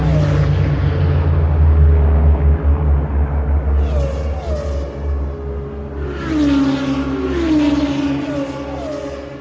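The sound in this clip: A racing car engine roars as it accelerates through the last corner of a track, a loud continuous droning growl whose pitch sweeps and shifts as the revs change.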